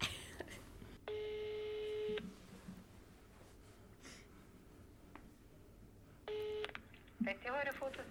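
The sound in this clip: Telephone tones sound while a call is being placed: two long, steady electronic tones with rich overtones, the first about a second long and the second shorter, several seconds apart over low background noise, with a few brief clicks near the end.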